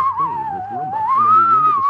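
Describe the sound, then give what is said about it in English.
A whistling melody in music, with an eerie, gliding, wavering pitch like stock UFO sounds, held loud and steady for two seconds over a bed of lower, shifting backing tones. “I like the music. The whistling sound is like, it's very like that, that kind of trope of like UFO sounds.”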